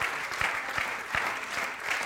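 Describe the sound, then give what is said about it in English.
A church audience claps hands together in a steady, even rhythm, many hands striking in unison at a brisk regular beat, with a faint crowd murmur between the claps. “Would you clap your hands unto the Lord this morning?”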